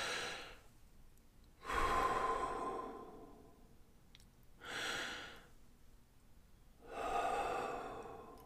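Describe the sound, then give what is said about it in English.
Slow, deep breaths during a relaxation exercise: two long, loud breaths stand out, with shorter, softer breaths around them, each a broad airy rush separated by quiet pauses. “Take a moment to breathe and relax. You can do this at any time, and then listen to your own heart. As you breathe, 2 deep breaths.”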